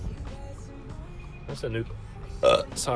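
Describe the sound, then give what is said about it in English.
A loud burp rises out of a busy background of voices and noise, one strong belch standing above the chatter. “That was a loud burp, holy crap, sorry.”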